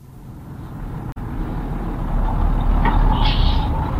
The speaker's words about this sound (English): This is a bus. Is it a small French bus? No, it's not. It's a big English bus.